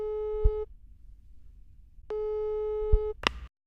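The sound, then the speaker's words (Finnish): A telephone call's ringing tone sounds as two steady, buzzy electronic tones, each under a second long with a long pause between them, followed by a brief sharp click. “Soitetaan pappalle ja pyydetään sitä järkkäämään tapaaminen Luomajoen Hannun kanssa.”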